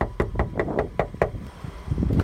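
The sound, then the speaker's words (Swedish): Knuckles rap on a factory door in a small village in north-western Skåne: a quick run of about six sharp knocks, followed by a few fainter taps. “En mulen och rå förmiddag knackade på dörren till en fabrik i det lilla samhället Glumslöv i nordvästra Skåne.”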